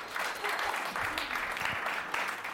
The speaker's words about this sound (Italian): Grande applausometro!